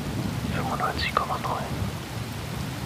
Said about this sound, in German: Ja, es regnet draußen, wenn mich meine Augen denn nicht trügen, wenn ich aus dem Fenster schaue.